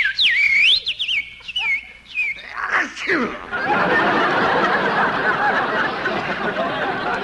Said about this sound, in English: Ah, listen to that little birdie singing.